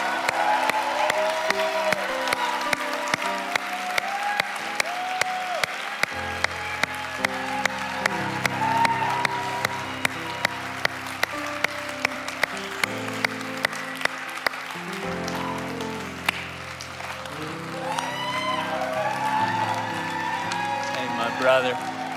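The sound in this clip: An audience applauds and cheers for people being baptized at a church service. Steady rhythmic clapping and scattered shouts continue while a man keeps talking over the noise.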